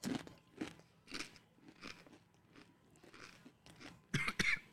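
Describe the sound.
A crunchy, dry chip being chewed: many crisp crunches in an uneven rhythm, ending in a louder cluster of bites.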